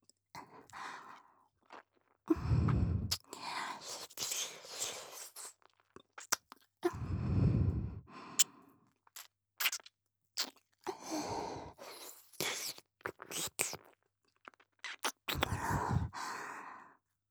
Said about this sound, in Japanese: 僭越ながら、私の舌でご主人様のお耳をマッサージさせていただきます。